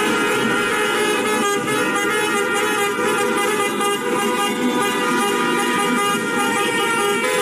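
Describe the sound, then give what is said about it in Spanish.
Car horns honk in the streets during celebrations of Spain's World Cup win, a dense, continuous blare of overlapping horns that stays loud and steady throughout. “Sonidos que seguro han escuchado tras las celebraciones de la Copa del Mundo que ha logrado España”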